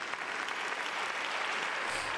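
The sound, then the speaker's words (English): Hand clapping in quiet, steady applause: a dense, even patter of claps at low level for about two seconds, with no talking over it. “I'm going to clap it up for him.”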